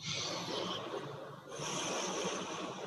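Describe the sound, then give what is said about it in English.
A deep breath drawn in: a long, steady rush of airy noise lasting nearly three seconds, dipping briefly midway, with a soft tonal bed beneath. “I invite you to take a nice deep breath in.”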